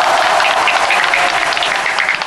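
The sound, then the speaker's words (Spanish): Dense, steady audience applause for contestants in a father-and-son quiz game, loud and continuous throughout with no clear gaps and no talk over it. “Un aplauso para ellos.”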